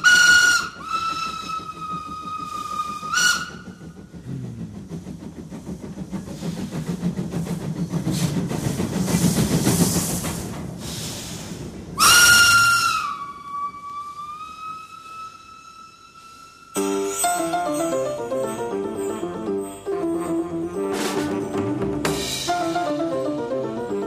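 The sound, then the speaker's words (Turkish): Steam whistle of an express train departing a station gives two long, loud blasts, separated by a stretch of hissing steam and rumbling. Music takes over toward the end. “Garın saati 19'du. Kalktı Anadolu sürat katarı.”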